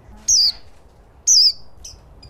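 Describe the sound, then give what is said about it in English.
An Indian white-eye, a small yellowish-green songbird, gives two high, thin calls that each slide downward in pitch, followed by a fainter, shorter note. “He's an Indian white-eye, a yellowish-green songbird the size of a sparrow.”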